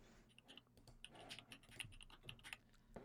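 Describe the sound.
Typing on a computer keyboard: a faint, quick and irregular run of many sharp key clicks with no talk over them.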